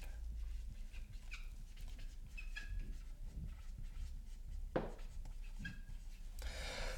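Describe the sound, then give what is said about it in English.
Handwriting, something being written down by hand, heard as faint scratching pen strokes in short, irregular bursts against quiet background hum. “I'm gonna just write this down.”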